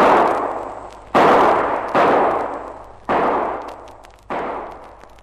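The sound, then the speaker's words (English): Revolver shots fired at distant targets: loud, sharp reports at irregular intervals, each trailing off in a long, rumbling decay, with the first already fading as the sound begins. “Now, let me place that fire. I think I can see where they are. Bit far for a revolver, but here goes.”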